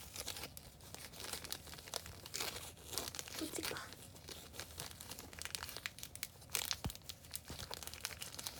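A plastic packaging bag holding a clip-on accessory is torn open, giving faint continuous crinkling and rustling with a few sharper crackles.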